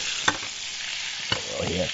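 Catfish wrapped in thin ham over herbs fries in a pan, giving a steady, even sizzle with a couple of sharp crackles or clicks, and no talk.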